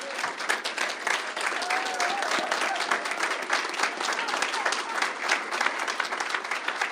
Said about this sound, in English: Ladies and gentlemen, please give a round and a big welcome, obviously, and congratulations to Local 237 President Gregory Floyd.